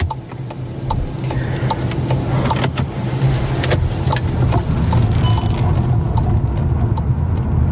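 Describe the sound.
Car driving along a country road through farmland toward a campsite: a steady, loud engine and road rumble continues throughout, with a light regular ticking on top.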